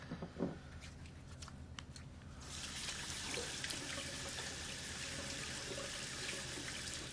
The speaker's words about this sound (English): washes his hands in the washroom